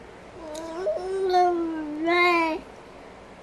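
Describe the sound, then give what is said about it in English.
A drawn-out, high, nasal whine rises at its start and swells twice before cutting off, a tonal, cat-like sound heard alone without talk. “You whining today? You aren't even talking. You just whine today.”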